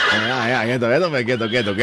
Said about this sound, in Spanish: yo siempre llego con este caballito, es una belleza, es un caballito caramelito. Que es muy bello.